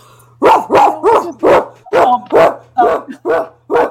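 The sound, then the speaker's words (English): A dog barks in a rapid, evenly spaced run of sharp, loud barks over a faint steady low hum. “that's my dog”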